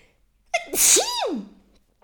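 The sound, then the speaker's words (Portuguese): A single loud human sneeze: a brief sharp intake, then a forceful explosive burst that fades quickly, with silence before and after. “Vou espirrar.”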